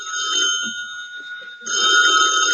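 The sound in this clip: A telephone bell rings on and on with a steady, bright metallic tone, dipping softer midway and then ringing loud again toward the end.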